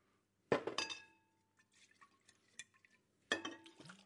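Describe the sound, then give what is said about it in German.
Water rinsing out a glass bottle: a sharp glassy clink and splash, then quieter sloshing and dripping, and a second clink and splash near the end. “Und dann wird die Flasche gereinigt. Alles wird rausgespült.”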